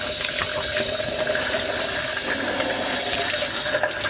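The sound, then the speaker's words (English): Tap water runs in a steady, even hiss as hands are washed under the stream, with no talk over it. “Let's wash my hands so that I can turn the recording off.”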